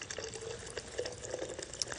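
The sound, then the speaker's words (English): Sparkling mineral water is poured into 100% grape juice, making a faint, continuous trickling, fizzing pour with small splashy pops. “I'm just going to add some sparkling mineral water.”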